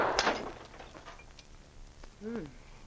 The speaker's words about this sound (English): Hold out one of those clay pipes to start with. And I'll stand over here. Like this? Yeah. Hold it a little farther away till you get used to it. All right. Shoot.